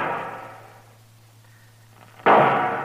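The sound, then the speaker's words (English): Rifle gunshots fired by a man lying among a small herd of slain buffalo: a sharp, loud report bursts in after a quiet stretch and rings out, following a fading tail at the start. “What's he shooting at now?”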